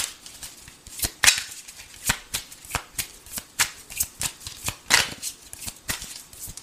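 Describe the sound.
Tarot cards shuffled during a love reading, heard as many crisp riffling slaps and snaps in an uneven but steady rhythm, fairly clear and alone without talk.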